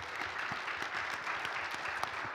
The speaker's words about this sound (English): I want to invite you all to just clap your hands and thank this wonderful group.